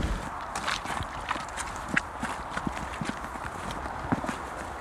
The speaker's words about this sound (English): Right, let's walk down here.